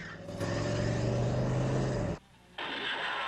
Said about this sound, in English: He swings the car round to take them in the opposite direction.